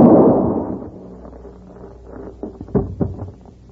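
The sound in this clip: A single gunshot rings out in a western showdown: a heavy boom at the start that decays over about a second, followed by a few softer thumps.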